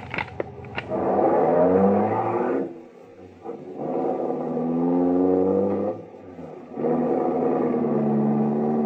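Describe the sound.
A taxi cab's engine pulls away and accelerates, its droning tone rising in a few successive sweeps, with dips between them as if changing gears. The sound stays loud and steady, with no voices.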